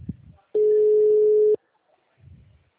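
A telephone signalling an incoming call: one steady, mid-pitched electronic tone lasting about a second, loud and even, with faint low sounds before and after.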